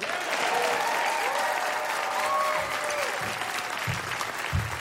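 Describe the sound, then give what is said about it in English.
An audience applauds to welcome a musical act to the stage: steady, dense clapping that holds at an even level for about five seconds, with a few low thumps near the end. “Now, ladies and gentlemen, please make welcome Becky Buller and the Fairfield Four.”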